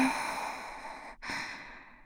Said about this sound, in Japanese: ゆっくり呼吸をしてみましょうか。はーい。吸って、